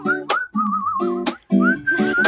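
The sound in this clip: Whistling in short melodic phrases, one wavering held note and rising glides, broken by brief pauses and bursts of breathy noise.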